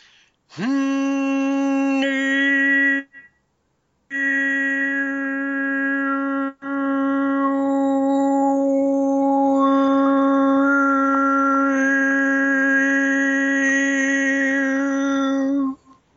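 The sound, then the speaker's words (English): Overtone singing: a low, steady droning voice with bright whistling overtones that shift above it, in three sustained phrases, the last long and unbroken. “along with blowing air, or that's how we sing overtone singing. Yeah, so it sounds like this.”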